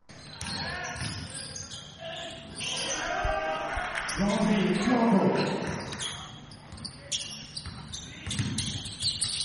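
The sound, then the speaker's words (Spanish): A basketball bouncing on a court, with many sharp, punchy bounces, some quicker and some spaced out, over a steady bed of voices. “Lo escuchábamos al inicio del programa. Este es el sonido de nuestro baloncesto.”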